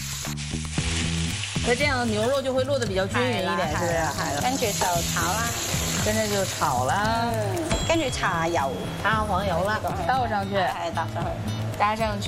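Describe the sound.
Beef mixed with egg is stirred and stir-fried in a pan, giving a loud, steady sizzle with stirring scrapes, while people talk over it throughout.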